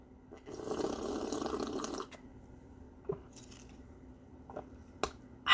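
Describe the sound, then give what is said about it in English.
Hot water poured into a cup for tea: a steady, rushing pour lasting under two seconds, followed by a few faint, sharp taps and clinks. “we grab our cup, pour hot water, two tea bags, a little honey for sweetness, and”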